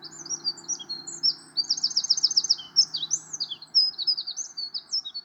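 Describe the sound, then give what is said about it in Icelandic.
A Eurasian wren sings a fast, high-pitched song of rapid trills and chirps, many hundreds of notes a minute, loud and continuous throughout. “Hraðinn í söng músarindilsins líka sérstaklega magnaður. Þetta eru mörg 100 nótur á mínútu, enda skelfur músarindillinn og hristist allur af áreynslu við að syngja.”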